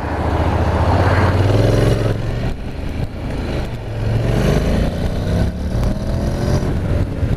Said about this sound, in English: It's one of those bikes that's so smooth, you don't really feel it picking up.